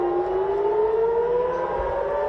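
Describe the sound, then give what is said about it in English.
Air raid siren during missile attacks in Israel, a loud sustained wailing tone rising slowly in pitch with a steady layered drone, heard alone without voices. “Another night of sirens as Israel and Iran attack each other.”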